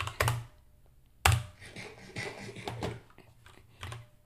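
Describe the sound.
Typing on a computer keyboard to write a message in a Minecraft game chat: two sharp, louder key thumps come first, then a run of many quicker, lighter clicks with uneven spacing, with no voices.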